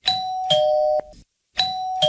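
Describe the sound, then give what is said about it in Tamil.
An electronic doorbell chimes at a house's front door, pressed twice, each press giving a clear two-note ding-dong with ringing tones, separated by a brief silence. “போய் calling bell அமுக்குவோம்.”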